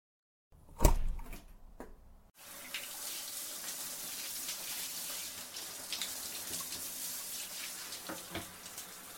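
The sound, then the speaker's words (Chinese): Tap water runs to fill a bath. A few brief clatters come first, then a steady, faint rushing hiss continues to the end. “你让我先去洗澡。”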